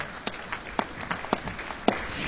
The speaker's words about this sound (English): You can now clap because that was all correct.